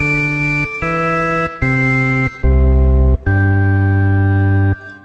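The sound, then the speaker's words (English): Five steady electronic tones play the Close Encounters motif, re, mi, do, low do, sol. Each pitch is held briefly, the fourth sits lowest and the final note is held longest and loudest. “The answer to question 19 might be easier if you hear the pitches for re, mi, do, sol. They sound like this.”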